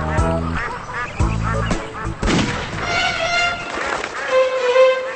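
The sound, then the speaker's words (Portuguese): Wild ducks quacking on a lake, giving a run of nasal, honking quacks in quick succession that stay fairly loud and steady throughout. “Correu e encontrou um lago onde patos selvagens brincavam alegremente.”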